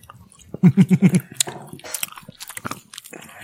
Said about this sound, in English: you chew while you're telling us what your favorite thing is. It's great. It's jerky.